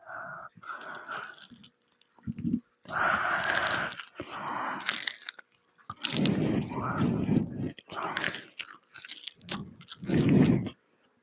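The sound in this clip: Crunchy biting and chewing of a Rice Krispie treat, heard close up as many short, crackly bursts of varying length separated by brief pauses, with no talking.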